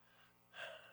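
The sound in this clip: A single sharp gasp, a quick deep intake of breath that swells suddenly in the second half after a quiet, low-level start.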